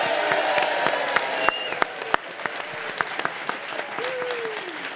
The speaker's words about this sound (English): It is a great, great pleasure to welcome this audience. Let's hear the audience this morning.